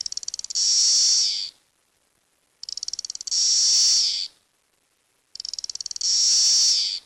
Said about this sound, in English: like tick, tick, tick, tick, and then a big loud screechy buzz. And this loud screechy buzz will just, when they're chorusing together and they become synchronized, it'll just swell up and be super loud.